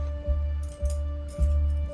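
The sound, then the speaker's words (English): A few soft metallic clicks and low knocks come as a key unlocks the top drawer of a wooden filing cabinet in a dark office and the drawer is pulled open. The sounds are quiet. “unlocks the top drawer and opens it”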